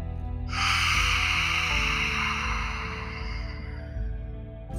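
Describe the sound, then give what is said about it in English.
A forceful exhale with the tongue stuck out during a yoga breathing exercise: a loud, breathy rush lasting about four seconds and slowly easing off, over soft, steady background music. “Stick your tongue out. One more time. Inhale. Stick your tongue out.”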